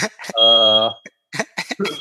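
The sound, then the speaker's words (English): A smoke detector alarm sounds as a thin, high-pitched beep held under a person talking, breaking off before the talk resumes. “my smoke detector's going off just again.”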